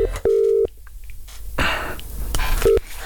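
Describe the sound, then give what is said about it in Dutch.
Telephone keypad tones as an Amsterdam number is dialed: a few short beeps and one longer steady tone, with some faint handling noise between them. “hij is op dit moment een nummer aan het intikken.”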